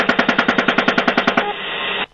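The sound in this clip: Machine gun fire from a helicopter, heard in a played video: a rapid, evenly spaced burst of about a dozen loud shots that blurs into a sustained roar before cutting off abruptly.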